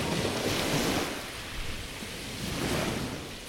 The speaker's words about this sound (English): I found some nice seascape sound effects to join everything together